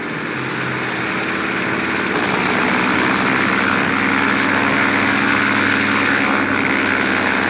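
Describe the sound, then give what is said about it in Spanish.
A propeller airplane engine starts up into a loud, steady droning roar that builds slightly at first and then holds at full strength, with no voices. “¡Gire la hélice! ¡Gire la hélice!”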